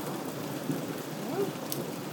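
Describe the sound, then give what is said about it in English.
Rain falls during a thunderstorm, the first to arrive after days of thunder elsewhere. It makes a soft, steady hiss of drops, fairly faint and even, with no voices. “so that's the sort of rain we've got at the minute.”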